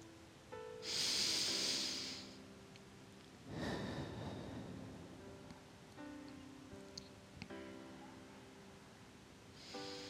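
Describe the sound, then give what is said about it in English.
Slow breathing, in through the nose and out through the mouth: a soft, hissy nasal inhale, then a fuller, lower exhale a moment later. Both are quiet, over faint sustained tones. “Inhaling through your nose and blowing it out your mouth at your own pace.”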